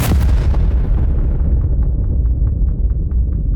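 Gunfire from a Beretta pistol shot into a man's back: a loud, booming blast that rolls on and slowly dies away, with faint, quick repeated pops continuing underneath.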